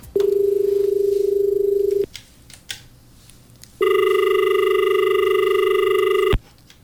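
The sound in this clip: Telephone ringing for an incoming call: two long, loud, steady rings with bright buzzing overtones, each lasting about two seconds and separated by a quiet gap.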